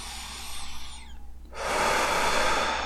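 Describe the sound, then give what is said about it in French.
A long breath blown out during a relaxation exercise. It starts as a softer, wavering breath and gives way to a steady, loud, airy rush of exhaled air, with no talk. “Vous pouvez souffler.”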